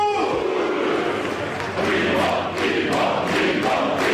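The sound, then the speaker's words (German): Euphoric football fans cheer and chant outside, celebrating with the team's promotion- and title-winning coach; a dense, steady crowd roar holds at full level throughout with only a brief dip. “Draußen bei den euphorisch gestimmten Fans entfachte dann doch einer den größten Jubel beim gemeinsamen Feiern.”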